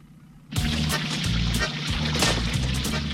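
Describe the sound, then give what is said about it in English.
Waste water pouring out of a pipe into a storm sewer, starting abruptly and continuing as a loud, steady rushing splash over a low throbbing rumble. “As he empties his waste out of the pipe, he gets it everywhere.”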